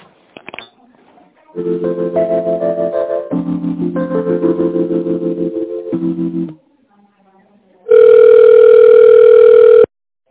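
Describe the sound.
Telephone line tones play while an office call is transferred to an extension: several sustained tones shifting in pitch, then a pause, then a loud steady tone lasting about two seconds.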